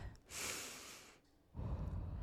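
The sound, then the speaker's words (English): A deep breath: an airy hiss lasting about a second, then a pause and a lower, rougher breathy rush. No one speaks. “If you're driving, take a deep breath.”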